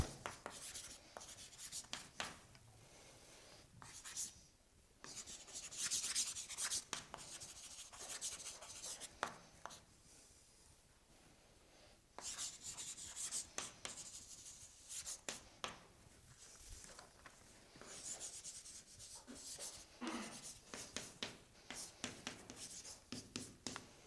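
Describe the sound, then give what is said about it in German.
Writing something down by hand: faint, continuous scratchy strokes in irregular bursts, with brief pauses between them. “Das schreibe ich hier nochmal auf.”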